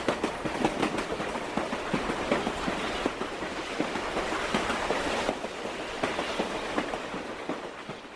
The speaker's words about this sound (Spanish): Y esta es una grabación del tren que pasa por el medio de nuestra comuna, ¿no?